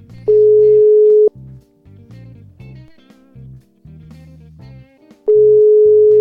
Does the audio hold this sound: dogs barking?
no